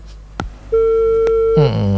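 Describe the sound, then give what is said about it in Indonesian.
A phone call to a live call-in line drops and leaves a steady, mid-pitched electronic tone for about a second. A couple of sharp clicks come around it, and a voice begins speaking as the tone ends. “Keputus. Bisa dicoba kembali ya.”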